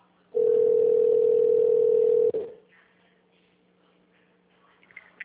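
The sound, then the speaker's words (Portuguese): A single steady telephone line tone during a call transfer holds loud and unbroken for about two seconds, then cuts off, leaving near silence with a few faint clicks at the end. “Por favor, aguarde na linha enquanto transferimos sua ligação para o representante.”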